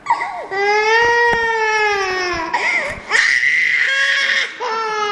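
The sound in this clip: An infant cries loudly during a baptism, with several long sustained wails separated by short catches of breath.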